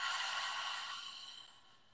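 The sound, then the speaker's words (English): A slow exhale of breath: a soft, airy hiss that gradually fades away over about two seconds. “Empty out all your air.”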